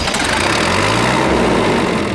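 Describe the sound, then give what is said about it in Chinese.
A tractor engine runs steadily as it carries riders out toward the sea to gather along the shore, a loud, constant low rumbling drone with no breaks and no voices. “坐着拖拉机，然后我们就往海域里边去了啊。”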